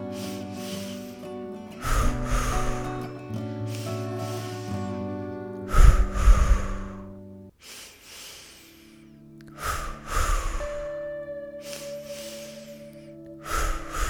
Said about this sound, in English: letting that all go on the exhale, and then returning to that pulse breath again.